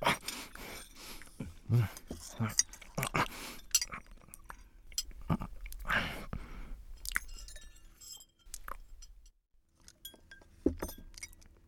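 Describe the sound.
A person eats a dish made from leftovers, with quiet, irregular chewing and mouth sounds and a few light clinks of tableware.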